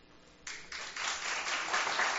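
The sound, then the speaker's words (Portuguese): Applause from the audience at a council session honouring a school's staff begins after a brief quiet moment, then thickens into a steady wash of many clapping hands that grows louder toward the end. “Então, toda a equipe merece todos os nossos aplausos, porque são excelentes.”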